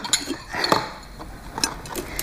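Dishes of food are handed over and picked up, with a few light clinks and knocks of plates scattered through a short stretch. The sounds are moderately quiet, with no talk.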